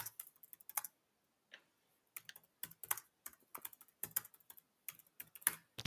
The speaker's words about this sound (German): Ich schreibe ihn mal kurz in den Chat.